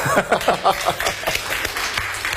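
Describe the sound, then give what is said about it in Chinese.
Scattered, sparse applause from an audience at a Beijing talk event, a handful of light claps loosely spaced over a couple of seconds rather than a full ovation. “谢谢你们稀稀拉拉的掌声”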